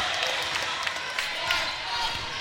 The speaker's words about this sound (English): dribbling at the top of the key